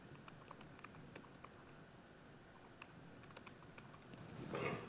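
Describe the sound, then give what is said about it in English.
Typing on a computer keyboard while an email address is entered: many quick, light key clicks in an irregular stream, faint throughout, growing a little louder and busier right at the end. “So it's easy enough to type in an email address.”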